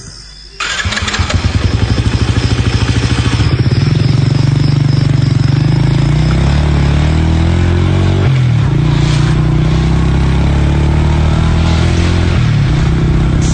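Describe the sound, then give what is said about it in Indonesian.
A motorbike starts and rides off: the engine catches abruptly, then runs loud and continuous, its droning pitch shifting a few times as it pulls away. “Setelah merasa cukup beristirahat, ku nyalakan motor dan segera lanjutkan perjalananku.”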